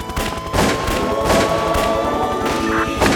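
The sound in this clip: Gunfire rings out as shooting begins, with several loud, sharp bursts cracking over a dense, continuous layer of noise that stays loud throughout.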